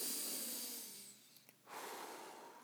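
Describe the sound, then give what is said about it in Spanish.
Slow breathing in and out during a guided breathing exercise: a long, soft breath that fades away, a short pause, then a second breath, both faint and airy with no talk. “Entonces, vamos a respirar, ¿sí?”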